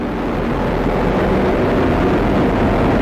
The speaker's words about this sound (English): Coming up on 30 seconds into flight, the RD-180 is throttling down as expected. Engine response looks good.